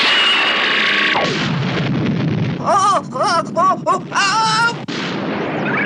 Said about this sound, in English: Full power through to main shield now. Right, fire laser blast. Firing now.